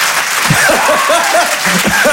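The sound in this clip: A live audience in a hall applauds during a comedy show, with steady dense clapping throughout and a few voices rising over it.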